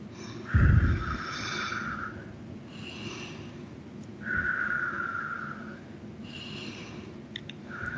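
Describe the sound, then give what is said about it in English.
Slow, deep breaths drawn in and let out during a guided breathing exercise: a few long, airy inhales and exhales that swell and fade, with soft rushing breath noise and no talking. “as we take three breaths in,”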